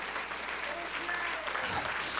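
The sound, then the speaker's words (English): Congregation clapping hands during a church service, a brisk, steady burst of many hands at moderate loudness with a voice talking over it. “Let's clap our hands unto him and bless his name.”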